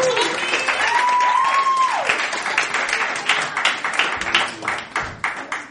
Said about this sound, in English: ladies and gentlemen, make some noise for Tony